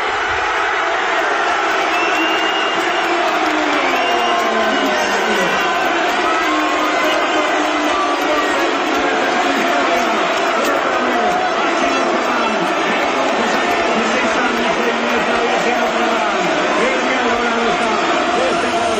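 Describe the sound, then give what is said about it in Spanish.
A packed town square crowd cheers in celebration of a championship win, a dense, continuous roar of many mingled voices that holds steady and loud for the whole stretch. “Estaba la plaza, abarrotada estaba la plaza, qué bonito, esa alegría.”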